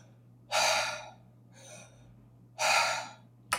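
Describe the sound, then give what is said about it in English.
Deep belly breaths drawn in and pushed out through the mouth, with no talking. A few loud, airy rushes come at a slow pace, with a softer one in between. “so in through the mouth, out through the mouth, and you can put your hand on your stomach and move your stomach. So in and out through the mouth, not the nose.”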